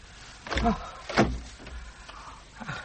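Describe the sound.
A door being unlocked and opened gives a few dull thunks and clunks of latch and wood, separated by short stretches of quiet.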